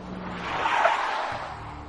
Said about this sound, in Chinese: 就在此时，任小素所在的领航车骤然刹车